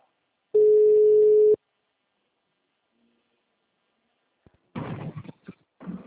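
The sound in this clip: A telephone ringing tone: a single steady mid-pitched beep lasting about a second, then several seconds of silence before a voice speaks.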